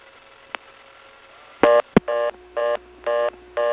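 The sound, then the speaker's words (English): Telephone dialing on an NX1 crossbar switch: a faint click, a short buzzy burst and a sharp click, then four evenly spaced multi-tone beeps over a faint steady tone. “So we got this dialing one. I'm sorry. And that is an NX1 crossbar switch.”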